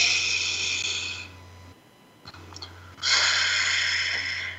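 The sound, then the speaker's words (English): A deep breath is drawn and released: airy breathing at the start fades into a quiet gap with a few faint clicks, then a longer, louder breath follows over a low steady hum. “So let's stop, pause, and take a moment to connect in. Take a breath.”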